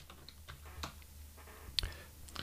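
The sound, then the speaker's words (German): A button is pressed, giving a few faint, soft clicks with one sharper tap near the end, over a quiet background hum. “Ich drücke mal den Knopf, pass auf, ich drücke jetzt mal den Knopf und weiß nicht genau, was passiert.”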